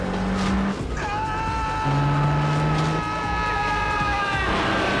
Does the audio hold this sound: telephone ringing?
no

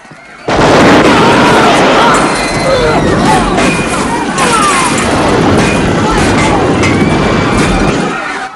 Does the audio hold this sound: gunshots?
yes

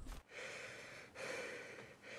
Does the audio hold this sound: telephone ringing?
no

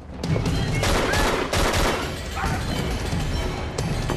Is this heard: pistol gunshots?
yes

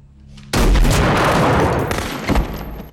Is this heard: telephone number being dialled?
no

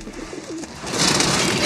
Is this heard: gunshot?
no

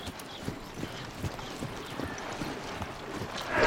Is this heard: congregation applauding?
no

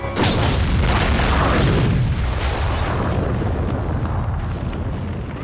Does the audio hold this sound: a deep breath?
no

